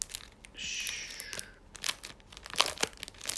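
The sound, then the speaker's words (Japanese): Plastic wrapping crinkles and tears as a postcard packed with a live best-of album set is opened. The rustles are faint and irregular, with a sustained crackly stretch early on. “開けます、ポストカード。”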